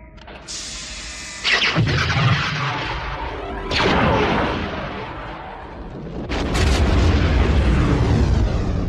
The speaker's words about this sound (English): It is the Death Star super laser firing on Alderaan.